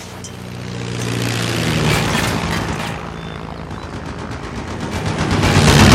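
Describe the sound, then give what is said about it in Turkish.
Aircraft flying overhead in a cold wartime scene with soldiers: a loud, rumbling engine roar that swells, eases slightly, then builds again, with rapid rhythmic pulsing. “Esmer asker duyduğu uçak sesleriyle durup gökyüzüne bakındı.”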